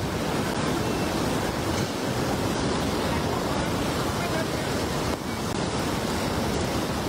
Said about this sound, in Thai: น้ำเชี่ยวมากนะครับ